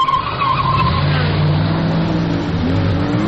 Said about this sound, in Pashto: زه اکثره وخت په کمپیوټر کې دغه د موټر ځغلولو ګیم کوم